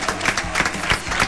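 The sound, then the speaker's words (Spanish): Applause from an audience sending off a visiting group of young guests, a dense, fairly loud clapping with a few sharper claps standing out at an uneven rhythm throughout the short stretch. “Los estamos echando con un fuerte aplauso.”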